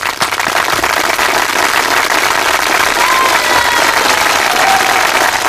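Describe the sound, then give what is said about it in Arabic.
Loud audience applause for a prize winner at an awards event, sustained clapping with some cheering mixed in, holding at full strength for over five seconds. “نحب تصفيقة ساعة اليوم باش تصفيق.”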